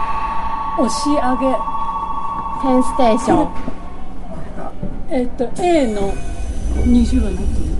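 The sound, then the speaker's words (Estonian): Express train on a direct line moving off after its doors close: a steady electric tone, then a low rumble building toward the end, with voices talking over it. “Vahepeal on sulgunud uksed ja otseliini Keisei rong liigub edasi.”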